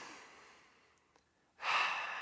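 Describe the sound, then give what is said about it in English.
One deep, breathy rush of air from a person taking a big breath swells in suddenly after a quiet stretch and holds strong to the end. “We're going to take a quick 5-second, just big inhale and let it all out.”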